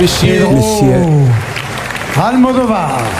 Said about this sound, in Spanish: que cruza la pasarela o la alfombra roja del Teatro Lumière del Festival de Cannes, y vamos a escuchar la ovación que recibe.